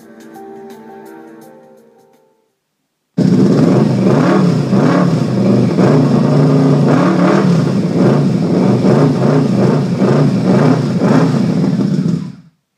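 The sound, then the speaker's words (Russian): An engine roars loudly and steadily for about nine seconds, with pulsing surges, as a handlebar throttle grip is twisted. A quieter tonal sound and a brief gap come before it. “когда он крутанул ручку газа, и двигатель взревел”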